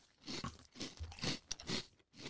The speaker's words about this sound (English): This is actually Cookie Crisp from 1994, and we found it under the couch.